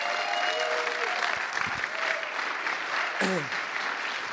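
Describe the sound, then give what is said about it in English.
Sustained applause from an audience welcoming a pastor, a dense, even wash of clapping from start to finish with a voice faintly heard over it. “why don't we put our hands together and give a warm welcome to Pastor Shane Willard”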